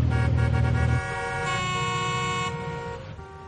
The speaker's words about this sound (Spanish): El semáforo del puente está en rojo, mientras los coches siguen pitando sin poder moverse.